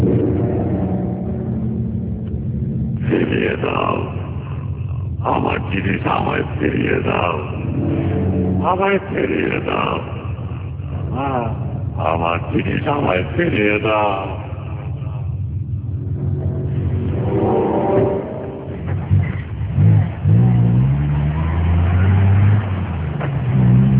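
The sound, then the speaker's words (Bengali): Car driving, with a steady low engine rumble that runs throughout under a talking voice. “Rafiq আর রবিন সাহেব রওনা দিল আজিজ সাহেবের বাড়িতে। রফিক সাহেবের গাড়ি করে যেতে খুব বেশি সময় লাগেনি তাদের।”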